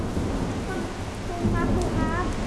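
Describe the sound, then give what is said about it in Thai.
Rain with thunder: a steady, dense hiss of falling rain over a deep, continuous low rumble that swells slightly in the second half, with faint voice-like tones surfacing briefly near the end. “เพราะฝนจะตกแล้ว”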